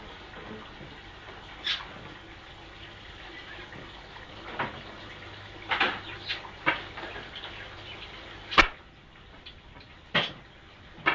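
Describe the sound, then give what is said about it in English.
Dishes being washed up with running water: a soft, continuous wash of water broken by a few sharp clinks and clatters of crockery, fairly quiet overall. “Tell you now, ma'am, you can't sing when you're doing your washing up.”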